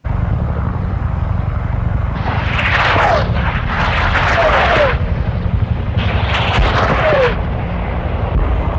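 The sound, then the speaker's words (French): Rockets being fired, heard as a few loud roaring whooshes, each with short falling whistles, rising over a constant low rumble. “Et ça n'a rien d'un jeu vidéo, hein. C'est des bruits de roquettes.”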